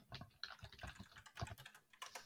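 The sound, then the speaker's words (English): A computer keyboard clatters as a Google search is typed, many rapid, faint keystrokes in uneven bursts. “to type in something so you might hear it. Uh, I would like for you both to type in Mara Persona 5 into Google.”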